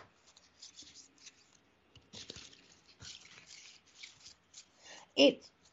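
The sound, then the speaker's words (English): Energy oracle cards are shuffled and drawn: soft, scattered rustling and sliding bursts come in irregular clusters, followed near the end by one sharp, louder tap or snap. “Let's pull two things. Let's pull an energy oracle card for you.”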